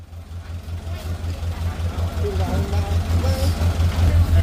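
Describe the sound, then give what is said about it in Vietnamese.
Road construction machinery at work on an inter-village road being widened to 8 metres in Kim Môn village, Chư A Thai commune, Central Highlands: a loud, steady, rhythmic low engine throb, with a voice speaking over it. “Những ngày này, thôn Kim Môn, xã Chư A Thai rộn ràng tiếng cười nói, xen lẫn tiếng máy móc thi công tuyến đường liên thôn đang được mở rộng lên 8 mét.”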